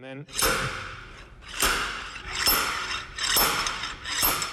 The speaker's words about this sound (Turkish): Evet, şu anda şaftın bu tarafına flanş takıyorum. Evet, yapacağım şey şu. Bu rotu buraya yerleştiriyorum. Pekala, tamam. Şimdi de bunu tutup çekiyorum.